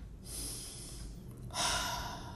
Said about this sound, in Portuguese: Respira, respira.